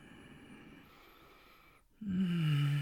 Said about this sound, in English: Let me just smell you, breathe you in.